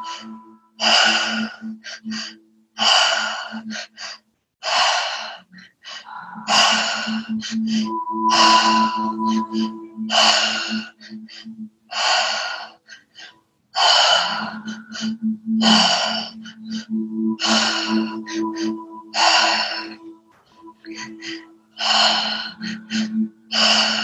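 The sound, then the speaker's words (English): Slow, deep breathing fills a guided breathing exercise, with many long, audible inhales and fully released exhales. The breaths follow an even rhythm, some carry a faint throaty hum, and brief pauses fall between them without any talk. “Come back into the breath. Deeply inhale, fully exhale.”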